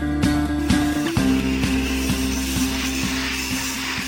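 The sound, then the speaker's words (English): Industrial machinery at work as sections of industrial pipe are welded together: a steady low, humming drone with regular rhythmic clicks and clanks running through it, with no voices. “That's the sound of links of industrial pipe being welded together.”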